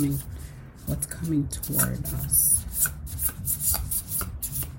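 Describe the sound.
A tarot card is drawn from the deck: soft rubbing and sliding of card stock and light taps, with a voice talking over the handling.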